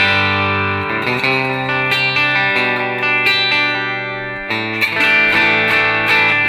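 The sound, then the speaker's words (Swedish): Electric guitar played through a boost pedal, heard with the boost on and off, ringing out sustained, slightly driven chords and single notes with effects. It is loud and steady throughout, and the tone shifts brighter after a brief dip partway through. “Låter så här. Med boost, utan boost.”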